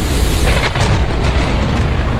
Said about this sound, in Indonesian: disertai guntur yang menggelegar.